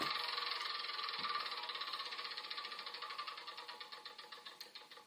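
A board game spinner whirs with a dense stream of rapid ratcheting clicks that gradually slow, the individual ticks spreading farther apart and fading as the wheel winds down, with no voices over it.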